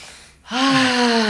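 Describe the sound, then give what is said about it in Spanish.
A deep breath drawn in through the mouth, starting abruptly after a brief pause and swelling into a loud, gasp-like inhale with a slightly voiced, tonal edge that holds steady to the end. “les invito a tomar una respiración profunda.”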